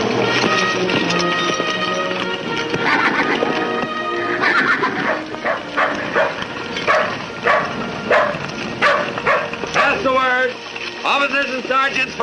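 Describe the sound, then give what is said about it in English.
A jet-black cavalry horse rears and neighs loudly, with hooves on rugged ground, inside a dense, busy mix. A shaky, wavering whinny stands out near the end. “The bugler stops beside him, his jet-black horse rearing up.”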